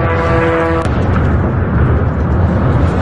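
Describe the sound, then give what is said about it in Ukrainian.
A Russian attack drone strikes a kindergarten building. A steady buzzing tone cuts off with a sharp blast early on, and loud, sustained rumbling noise follows. “Більшість збили, та 2 влучили у будівлю дитячого садка. Влучання одного із них вдалося зафільмувати очевидцям.”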